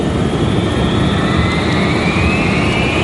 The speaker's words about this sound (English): On takeoff, the 757 performs perfectly. 80 knots check.